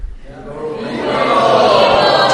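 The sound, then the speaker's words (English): An audience cheers for Lord Varahadev's appearance day, a modest wave of many voices that swells from quiet into a sustained, moderately loud cheer. “That's good, but that was a small cheer.”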